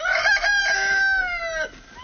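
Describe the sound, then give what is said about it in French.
A chicken calls on a small Ardennes farm where about twenty hens are kept: one loud, drawn-out, tonal cry that holds steady, then slides lower in pitch before breaking off. “Anne Abraham vient nourrir sa vingtaine de poules”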